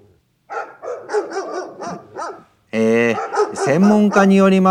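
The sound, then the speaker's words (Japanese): A dog barks outside in a run of short, sharp barks, followed by louder, longer barks and yelps. “ちょっと外の犬がうるさいですね。文句言ってきます。”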